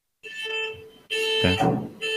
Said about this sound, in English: And car alarms.